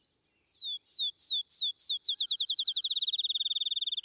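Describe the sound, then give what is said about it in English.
A field sparrow sings alone: high, sweet slurred whistles start slow and evenly spaced, then speed up steadily into a rapid trill that holds to the end. “high pastures, the field sparrows sings his breezy vesper hymn.”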